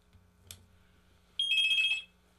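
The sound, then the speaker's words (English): A telephone rings with a single short electronic trilling burst, high and buzzy, lasting about half a second after a faint click, with no voices. “All right, phone ring.”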